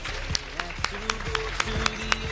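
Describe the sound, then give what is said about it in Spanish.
Audience applause at a school competition ceremony, a fairly faint, steady rhythm of distinct claps running under a speaking voice. “Un aplauso enorme.”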